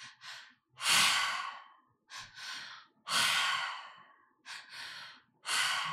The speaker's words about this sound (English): So into the belly, up into the chest, out through the mouth.